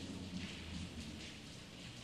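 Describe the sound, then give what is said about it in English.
Light rain falling outdoors, a soft, steady hiss of drops that stays faint and even throughout, with no voices. “I can hear what sounds to be a little bit of rain coming down.”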